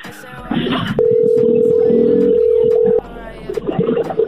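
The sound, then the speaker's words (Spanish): A telephone line tone sounds while a call is dialed: one steady mid-pitched tone lasting about two seconds, with people talking before and after it. “Ahí está marcando.”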